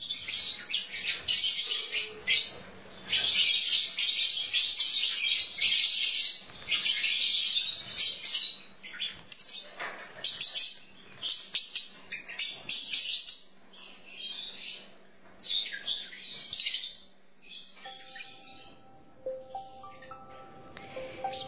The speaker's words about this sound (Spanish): El perico Ruperto, ahí estaban unos loritos que hoy nos daban la bienvenida